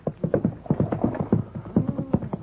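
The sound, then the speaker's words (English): Horse hooves clip-clopping in a quick, steady rhythm, many dull hollow beats in repeating pairs at an even volume, with no voices. “I'll tie my horse and cart him behind”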